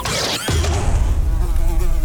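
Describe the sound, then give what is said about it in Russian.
Housefly buzzing steadily for about one and a half seconds, a continuous droning hum with a slightly wavering pitch, loud and alone. “О, я знаю, это муха.”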